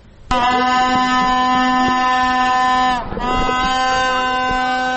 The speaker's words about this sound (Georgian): ასე საყვირებითა და ხმაურით ცდილობდნენ აქციის მონაწილეები კანცელარიის შენობაში მყოფი მთავრობის ადმინისტრაციის წევრებისათვის ხმის მიწვდენას.